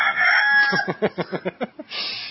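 Rooster crowing: a drawn-out, strained call, then a quick run of several short, sharp pulses, ending in a brief burst of hoarse noise, loud and alone.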